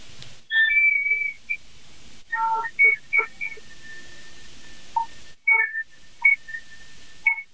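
Blown whistle tones come as a series of thin, high, pure tones: several short chirps in clusters and one long, faint, steady held tone in the middle. No voices.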